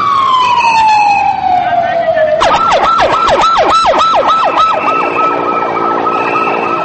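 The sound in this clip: Ambulance sirens sound after a militant attack on the American consulate in Peshawar: a long, loud wail falls steadily in pitch, then breaks into a fast, repeating yelp that continues to the end.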